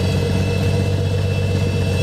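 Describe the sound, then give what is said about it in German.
A six-cylinder, 230 hp, 8-litre aircraft engine runs at a steady throb. Its deep, even drone and constant low hum stay at one level throughout, with no voices. “Das sind 6 Zylinder, 230 PS. Da geht was. Da geht was. Bei 8 Liter Hubraum.”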